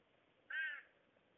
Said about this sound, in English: Crows and pigeons call to each other or fly